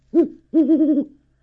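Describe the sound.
A great horned owl hoots twice, low and alone: a short hoot, then a longer, wavering one.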